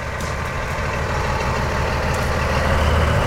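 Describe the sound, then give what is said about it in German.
An 1100 hp V100 diesel locomotive starting to move at a railway summer festival. It gives a loud, steady, low diesel roar with broad rumbling texture that grows slightly louder toward the end. “So klingt es, wenn 1100 PS eine V100 Diesellok in Bewegung setzen.”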